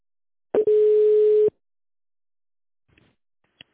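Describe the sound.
A single steady telephone line tone while a call to a business line is transferred to a specialist, about one second long, preceded by a short click and followed by silence and a few faint clicks.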